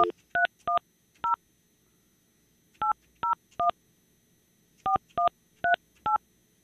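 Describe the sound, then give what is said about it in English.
Touch-tone beeps as a telephone number is dialed: eleven short dual-tone keypresses in three quick clusters, separated by brief pauses. “Let me try calling him one more time.”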